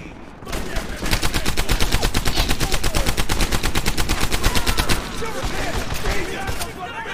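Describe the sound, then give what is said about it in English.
Rapid automatic gunfire from the video game Medal of Honor Airborne rattles in a fast, steady, loud stream of shots for several seconds, then continues a little less densely. “Where are they even at? Oh snap, they're shooting.”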